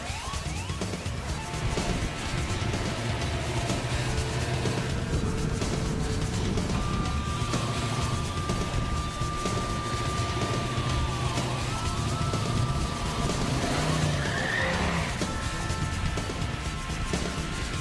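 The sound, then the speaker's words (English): Drag race cars, one of them an LS6 Chevelle, make a loud, continuous engine roar that holds steady throughout. A high, wavering squeal rises above it midway, and no voices are heard. “It's like a great movie scene here. The drag race.”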